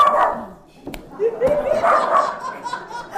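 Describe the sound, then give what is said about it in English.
A person's voice mimics a dog sniffing for a scent, as a detection dog does when searching for explosives: a few seconds of rapid, breathy snuffling and snorting bursts. “You know, when you see a dog smell and they're sort of going like, and”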